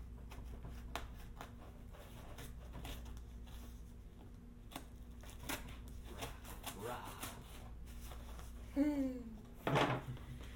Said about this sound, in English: So I am going to cut into it to the tape on the side.